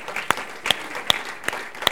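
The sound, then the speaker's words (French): A church audience claps along at a French-speaking service, giving five even, evenly spaced claps in a steady rhythm. The claps sound fairly loud but subdued, over a soft murmur. “Vos acclamations ressemblent aux acclamations des gens fatigués.”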